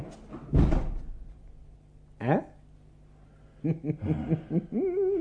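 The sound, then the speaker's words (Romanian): A door is shut with one heavy thud. After a pause comes a brief creaking sweep, and then voices talk. “Hai, închide odată ușa!”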